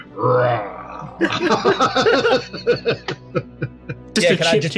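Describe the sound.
A person imitates a roar during a tabletop role-playing game, making a low, growling vocal rumble at the start, followed by talk.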